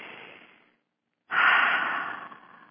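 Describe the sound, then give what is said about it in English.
Deep breathing: a softer airy breath fades out, then after a short pause comes a long, loud rushing breath that swells quickly and slowly tapers off. “Take a deep breath.”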